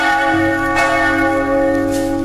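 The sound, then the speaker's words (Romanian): A bell rings with a steady, sustained metallic tone full of layered overtones, humming on continuously without separate strikes standing out. “Scuzați, ăsta e clopot.”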